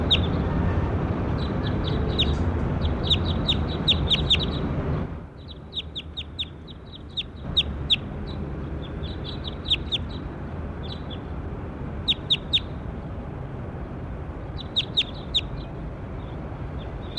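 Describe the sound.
Birds call in short, high-pitched chirps that come in quick repeated clusters over a steady low hiss. The background thins out for a moment partway through before the chirping clusters continue.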